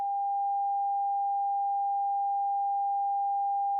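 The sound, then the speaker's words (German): A quiet test tone holds at one unchanging pitch for about four seconds. It is a pure, steady hum with no other sound around it. “Hören wir zunächst einen leisen Ton.”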